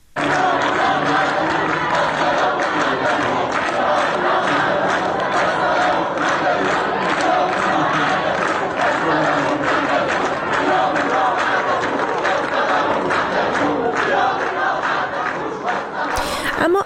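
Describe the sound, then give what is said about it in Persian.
Students chant protest slogans in unison during a campus sit-in at Azad University, a loud, continuous, rhythmic crowd chant that holds steady from start to finish. “از دانشجویان دانشگاه آزاد عراق و همینطور دانشکده علوم انسانی دانشگاه سراسری عراق هم در محوطه این دانشگاه دست به تحسن زدن، شعارهای اعتراضی سر دادن در روز یکشنبه. با هم صدای دانشجویان دانشگاه آزاد عراق رو بشنویم.”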